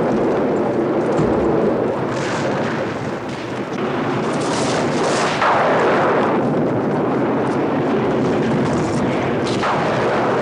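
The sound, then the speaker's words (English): Booming, crackling lightning strikes blast through a palace in a video game, a roaring barrage of several sharp bursts and rumbling impacts over a continuous heavy din. “Yeah, there's lightning being shot down and destroying half the palace.”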